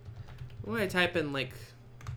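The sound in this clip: Clicking of typing on a computer keyboard, with light, quick key taps at the start and end and a person's voice speaking over the middle.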